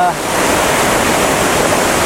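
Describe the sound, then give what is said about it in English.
A waterfall roars in a loud, unbroken rush of falling water, a broad steady hiss and churn that stays constant from start to finish. “I think I'm going to set up, point it directly at the waterfall, try and get some of this nice water in the foreground”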